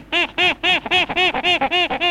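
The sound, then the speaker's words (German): A small monkey calling, about nine quick, high, squawking calls in a steady chattering rhythm, each with a rising-then-falling arc, loud and without talk. “Und der kleine Affe, was sagte der eben?”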